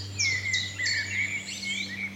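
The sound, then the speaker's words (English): Blackbirds sing in the morning in the Brecon Beacons, with overlapping fluty, warbling phrases rising and falling. A steady low hum sits beneath the song. “It's mainly blackbirds.”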